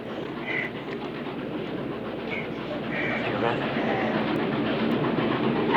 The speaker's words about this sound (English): Spectacularly, the steam train careers off the bridge and dives headfirst into the riverbed.